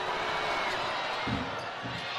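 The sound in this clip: A basketball bounces as a BYU player gets ready for a free throw against Illinois State. A couple of dull, low thuds sound under steady crowd noise.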